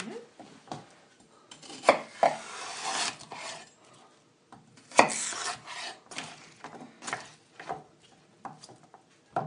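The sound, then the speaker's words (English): A sharp Wusthof kitchen knife cuts vegetables during prep, with many irregular chops, scrapes and rasping strokes on a board. The sounds are mostly soft, with a few sharper hits. “It's a sharp Wusthof. We'll work on some pretty knife cuts.”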